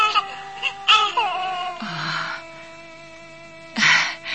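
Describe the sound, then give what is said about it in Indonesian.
An infant crying while being soothed by a grandmother: short, high harmonic wails and whimpers in a few separate bursts, fairly faint, with quiet stretches between them. “Tenang cucuku, ada apa? Tenanglah ya. Jangan menangis.”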